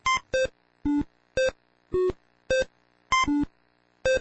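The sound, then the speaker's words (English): Breakout, a 1980s computer game played by an artificial intelligence system, gives out nine short electronic bleeps at irregular intervals. They vary between higher and lower pitches, with two of them close together near the end. “This is the sound of Breakout, a 1980s computer game. It's being played by an artificial intelligence system.”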